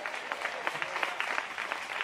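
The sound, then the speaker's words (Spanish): A church audience applauds, with dense, even clapping from many hands holding at a steady moderate level throughout, with no voices standing out. “Denle un aplauso al Señor en esta hora.”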